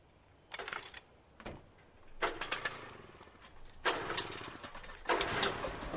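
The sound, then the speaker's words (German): An old petrol generator in a shed, in a video game, coughs and sputters in a few uneven bursts, then settles into longer stretches of rough, chugging running. “Das Stromkabel führte zu einem alten Generator.”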